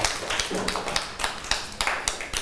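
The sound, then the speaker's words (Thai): Children clap for a classmate during a class lesson about a flood. The many uneven claps form a fairly faint, dense patter with no talk. “ปรบมือให้กับนิรินทร์หน่อย”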